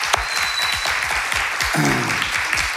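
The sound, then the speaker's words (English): An audience gives a big round of applause to thank volunteers who park cars, drive golf carts, look after children and run worship and sound. The clapping is dense and loud, holding steady across the short burst. “Can we just give them a big hand and just tell them thank you?”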